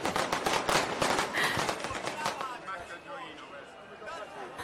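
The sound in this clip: Fireworks exploding over Naples during a celebration finale: a dense, rapid barrage of sharp cracks and bangs fills the first half, then thins into sparser, quieter crackling.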